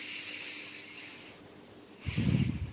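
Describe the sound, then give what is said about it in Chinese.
A deep breath drawn in during a guided relaxation meditation: a loud, breathy rush of air near the end that follows a long, quiet and faintly hissy stretch. “第一次深呼吸，嗯，好。第二次深呼吸，嗯，好。第三次深呼吸，”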